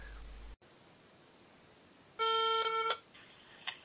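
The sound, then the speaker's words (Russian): A phone line tone sounds once as a call is placed near a pedestrian overpass: a loud, pure, steady beep of under a second over constant hiss, followed by a fainter tone. “давайте дальше сейчас позвоним, посмотрим, что будет”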